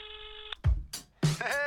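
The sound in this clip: Electronic telephone tones sound as an outgoing call is dialed. A steady buzzy tone breaks off, a couple of low soft thumps follow, and a louder cluster of tones closes the sequence.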